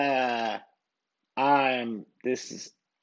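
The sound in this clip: A human voice imitates a sheep bleating, giving two wavering, nasal bleats separated by a pause, then a short, choppier vocal sound.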